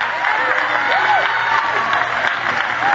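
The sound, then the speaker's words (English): A church audience claps hands during worship, the dense, steady applause running unbroken from start to finish. “Clap your hands and praise God.”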